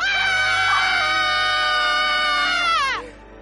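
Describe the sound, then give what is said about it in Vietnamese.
Two people scream together in terror in the dark beside a banyan tree. The scream is loud, shrill and sustained for nearly three seconds, then its pitch sweeps sharply downward as it breaks off. “Bỗng cả hai cùng hét toáng lên vang dội.”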